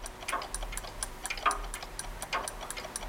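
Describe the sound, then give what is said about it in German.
A large clock ticks in a steady, evenly spaced rhythm of many faint, crisp ticks, heard alone without any voices. “Nimm dir mal ein Beispiel an der großen Uhr. Da, an der da, schau.”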